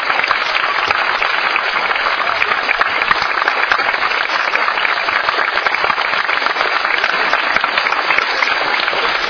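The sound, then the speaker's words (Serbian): A crowd applauds to see off a departing bishop, with dense, steady clapping held at an even, loud level throughout and no break. “nam vladika naš Joanikije, Budimirsko Nišićki odlazi s jednim aplauzom da ga ispratimo”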